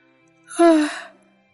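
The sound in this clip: A single drawn-out yawn from a man passing through a living room in the morning: a breathy voiced swell under a second long with a slight downward glide in pitch, heard alone without talk.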